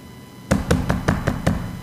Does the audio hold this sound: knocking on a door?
yes